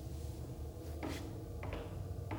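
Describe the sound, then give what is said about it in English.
Wooden boxes are opened in a radio drama, with a few soft wooden creaks and knocks rising faintly over a low, steady hum. “Open the boxes. I'll take the two over here. Harker, open those three on the far side of the room. I'll take the ones at the center.”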